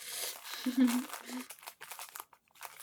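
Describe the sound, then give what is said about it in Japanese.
A plastic bag on a pastel gift box is torn open: short, faint bursts of crinkling and ripping plastic come in quick, uneven succession, with a soft voice murmuring briefly near the start. “とりあえず、袋を開けとくから開けるんだ、これ。ビリビリって言っていいのか、これは。”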